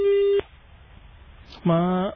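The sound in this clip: A steady electronic telephone tone sounds alone after a caller drops off a radio phone-in, then cuts off abruptly, followed by a short pause and a brief voiced sound.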